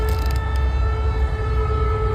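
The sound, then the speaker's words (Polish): Air raid warning sirens sound in Lublin or Rzeszów, Poland, during an alert about a possible threat from the air. A sustained steady wail rides over low rumbling noise, loud and unbroken, with no voices. “Tuż przed południem zawyły tam syreny. Mieszkańcy tych miast i regionów otrzymali alerty RCB o możliwym zagrożeniu z powietrza.”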